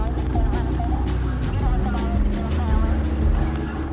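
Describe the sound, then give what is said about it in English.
A car drives out into the city, its steady low engine rumble running the whole time with other sounds layered over it. “Pastor sits behind the wheel, and Regina sits beside him. They drive out into the city.”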